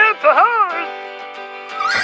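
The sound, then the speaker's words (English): A cartoon horse whinnies: a shaky, wavering high neigh settles into a sustained tone lasting about two seconds. “It's a horse!”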